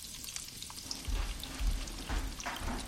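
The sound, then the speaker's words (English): Onions sweating in a pan on low heat give a soft, steady crackling sizzle throughout, with a few dull low bumps partway through. “Just keep an eye on those onions for me, please. We don't want them to get brown. Just sweat them down a bit.”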